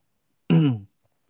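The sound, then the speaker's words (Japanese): A single short, throaty throat-clearing cough after choking, one brief rough burst alone in silence. “ちょっとむせてしまった。”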